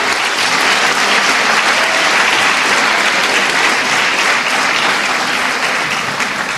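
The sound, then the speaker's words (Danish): An audience applauds politicians at an election event at Frederikshavn Gymnasium and HF-kursus. Dense, steady clapping from many hands keeps up for nearly seven seconds and thins slightly at the very end. “Jeg synes, I skal give dem en hånd.”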